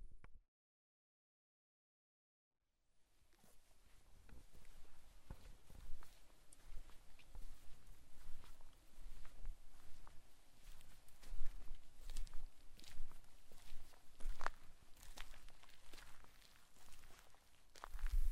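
Footsteps walking along a tractor lane through a grain field. After a short silence comes continuous soft rustling and crunching of crop and ground, fairly faint and steady throughout.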